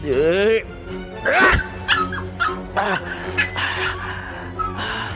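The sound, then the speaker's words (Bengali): A small white Spitz dog yips and barks as it charges, starting with a high wavering whine and moving into a run of sharp, loud barks and yelps. “একটা সাদা রঙের কুকুর speeds প্রজাতি বেশি বড় নয় সেটা আবার তেড়ে এলো”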